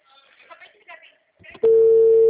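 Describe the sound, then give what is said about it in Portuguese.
A telephone call signal sounds while someone phones another person: a loud, steady single-pitch tone that starts after some brief talk and holds unbroken to the end. “Tô ligando pro José.”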